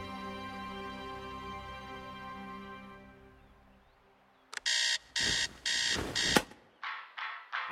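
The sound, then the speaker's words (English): An alarm clock goes off at 8 a.m. A sustained tone fades away, then loud, rapid beeping bursts start and repeat steadily, the later ones shorter and quicker. “It's 8 a.m. and Mario's alarm goes off.”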